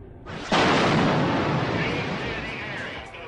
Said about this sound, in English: The blast shook the 28th-floor building, blowing windows into the street. The bombs are thought to be the work of a group of IRA terrorists.